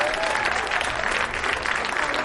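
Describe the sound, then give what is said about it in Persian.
An audience of engineers applauds themselves. Many hands clap in a dense, continuous roar of applause that stays loud and even throughout. “به به به، آقایین مهندس اینجا یه دست بزنن خودشون.”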